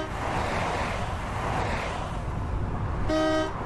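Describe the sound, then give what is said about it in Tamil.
Cars and other vehicles speed past on a road in a continuous broad rushing whoosh that swells and eases, then a short, loud car horn toot sounds near the end. “நமக்கு பின்னால் வந்த கார்கள் வண்டிகள் எல்லாம் வேகமாக நம்மை கடந்து செல்கின்றன.”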